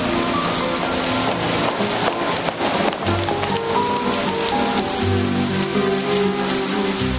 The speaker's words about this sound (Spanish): Fuera llueve con fuerza.